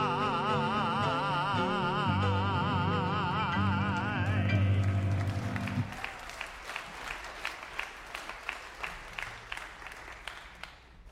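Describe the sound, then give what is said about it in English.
Applause within a recorded song: music plays for about six seconds, then gives way to scattered hand clapping that continues, thinning out, to the end. “Isn't that one of those songs with applause you go into an encore?”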